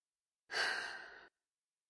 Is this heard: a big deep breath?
yes